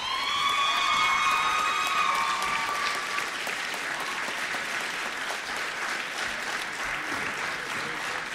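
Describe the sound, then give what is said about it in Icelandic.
Audience applause at an awards presentation: steady, dense clapping that holds at an even level for about eight seconds. “gefið þeim gott klapp”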